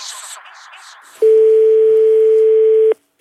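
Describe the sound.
Telephone tone after a call is hung up: a short stretch of noisy rustle gives way to one steady, loud mid-pitched tone that holds for under two seconds and then cuts off sharply into silence.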